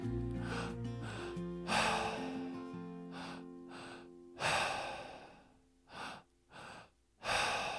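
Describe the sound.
Deep breaths drawn in through the belly and chest and then released during a guided breathing exercise: a few long, airy inhales and exhales rising over soft, sustained musical tones.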